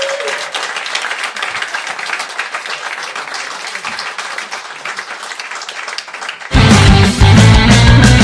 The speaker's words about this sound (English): Put your hands together. Let's welcome Mr. Guy Fawkes.